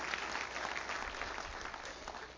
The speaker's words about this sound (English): Let's give Jesus a victory clap.